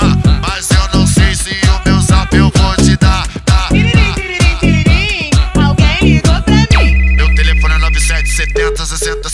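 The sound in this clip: Phone ringtone melody woven into a song, riding over punchy, loud rhythmic beats, with a sustained bright electronic tone taking over near the end.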